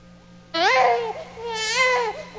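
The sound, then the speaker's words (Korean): A newborn baby cries in loud, high wailing bursts that rise and fall over about two seconds, beginning abruptly after a quiet start, with no talk. “아기는 태어나자마자 왜 울지?”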